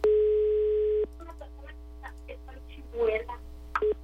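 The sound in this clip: Ringback tone of an unanswered telephone call: a steady, low, hum-like tone sounds for about a second, then faint voices talk, and the tone briefly returns at the very end.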